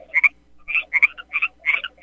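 Frogs croaking in a swamp, a steady series of about six loud, raspy croaks at an even rhythm, with short silent gaps between calls.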